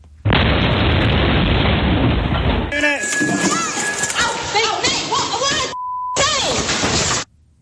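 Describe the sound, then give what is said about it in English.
Protesters breaking into a UK subsidiary of an Israeli defence firm: a long, loud burst of crashing noise, followed by raised voices and a steady high tone. “That was the sound of five Palestine Action protesters breaking into a UK subsidiary of an Israeli defence firm.”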